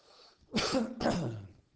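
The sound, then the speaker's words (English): Coughing and throat clearing from someone with a frog in their throat, two rough, raspy bursts back to back, fairly quiet and without speech. “I just cannot get this frog out of my throat.”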